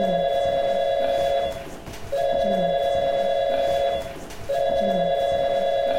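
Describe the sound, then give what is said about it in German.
A telephone rings at home: three long, steady electronic ring bursts separated by brief pauses, loud over a constant noisy background, with no voices. “Stellen Sie sich vor, Sie sitzen daheim auf Ihrem Sofa und bekommen einen Anruf.”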